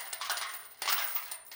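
Many coins pour into a temple treasury in a dense, continuous metallic jangle. A louder surge of clinking comes midway.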